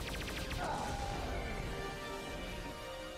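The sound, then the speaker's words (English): Missiles and a main weapon fire together in a loud, dense burst of blasting noise with a whooshing streak early on, settling into a sustained rumbling roar that eases slightly toward the end. “Fire missiles. Main weapon. Fire.”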